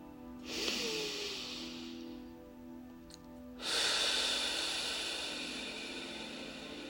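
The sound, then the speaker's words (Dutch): Deep breathing for a guided exercise: a soft, airy inhale through the nose, a pause, then a long, louder breathy exhale through the mouth over a low steady drone. “Adem een keer heel diep in door je neus en helemaal uit door je mond.”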